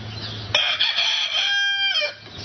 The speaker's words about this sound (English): that's kind of funny when you hear the rooster kind of crow like that. But the rooster crowed.